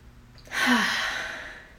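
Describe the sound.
A single deep breath is drawn in and let out as a soft, breathy sigh. It swells quickly and fades slowly, with no talk.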